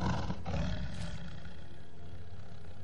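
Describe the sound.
A tiger roars in a jungle setting, one long, deep, rough roar that is loudest at the start and slowly fades over about three seconds, with no voices.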